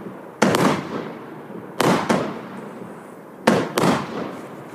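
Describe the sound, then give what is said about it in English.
A 49-shot fireworks cake with big breaks fires loud booming bursts in three evenly spaced groups, each a sharp crack followed by a rolling, crackling boom that trails off. “Just watch Big Rocket Johnny. 49 shots, right? Mm-hmm. Here's the demo. All right. Big breaks. Nice big breaks.”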